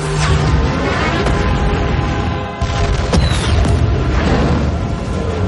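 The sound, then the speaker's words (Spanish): A spaceship explosion in a science-fiction action film: a heavy, loud roaring rumble that sustains throughout, with a brief dip midway before surging again. “Una explosión envuelve a Face. Una sección de la nave se separa del resto que se destruye.”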